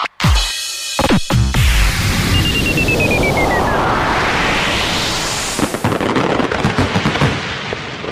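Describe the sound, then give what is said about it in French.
Fireworks go off as a pyrotechnic effect: a few sharp bangs at the start, then a long rising whistle over a dense, loud crackling hiss that continues steadily to the end. “Feu d'artifice, effet pyrotechnique.”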